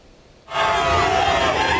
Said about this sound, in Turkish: Kendilerini bekleyen kalabalık tezahüratlarla desteğini gösterdi.